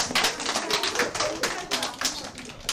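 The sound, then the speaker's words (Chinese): Applause in a classroom as children clap for a student group's presentation: a steady, dense patter of many hands that runs the whole time without a break. “好，掌声。”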